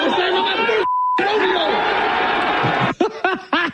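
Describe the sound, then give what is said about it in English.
A single short, steady beep tone censors a word in an excited man's speech, briefly replacing his voice and the crowd chatter before the talk and background noise resume. “had to beep that out.”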